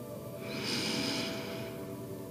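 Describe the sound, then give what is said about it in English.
A single slow, deep breath during a guided breathing exercise: a soft, airy rush that swells for about a second and then fades, with no talk over it. “And slowly exhale. Nice deep breath in.”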